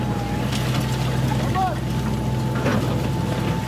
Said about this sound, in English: Now, a crew has arrived with a huge orange excavator.